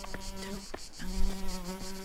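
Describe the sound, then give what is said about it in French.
A housefly buzzes in a steady droning whine with a slightly wavering pitch, its loudness swelling and easing several times as it moves about, with no voices. “Oh, et la mouche là, va-t'en.”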